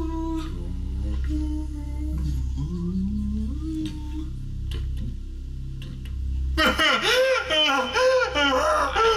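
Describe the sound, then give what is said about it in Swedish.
Someone crying: a wavering, moaning voice rises into louder, shaky wails partway through, with uneven sobbing pulses toward the end. “känns lite obehagligt det här gråtandet. Jag, kan du som gråter vara snäll och komma fram?”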